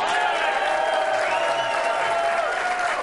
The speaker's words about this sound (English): And, Mike, the ovations get louder every week.